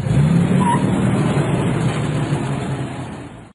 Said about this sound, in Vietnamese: Xe chạy ra đường Thuận Kiều, chừng đi ngang qua nhà lầu